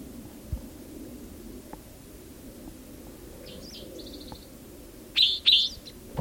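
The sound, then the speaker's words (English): Bird chirps near the end: a few bright, high tweets close together, with a fainter note just before them, over a steady low rumbling background. “There's another bird singing nearby.”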